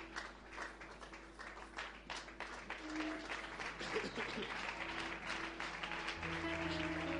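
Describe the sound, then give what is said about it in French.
Church audience applauding: dense, steady clapping continues throughout at an even level, with sustained tones running beneath it. “Est-ce que nous pouvons nous lever pour bien acclamer le Seigneur?”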